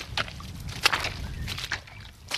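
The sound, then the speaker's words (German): Rubber boots wade through shallow water in the Chläpfiberi Moos peat bog near Herzogenbuchsee, sinking into the soft peat with soft, irregular sloshing splashes that recur several times, faint and without voices. “Wir waten durch untiefe Wasser. Die Gummistiefel sinken tief ein im Torfboden.”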